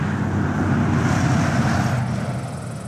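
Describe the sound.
Bus driving away: a steady, low engine rumble with broad road noise holds throughout, easing slightly toward the end.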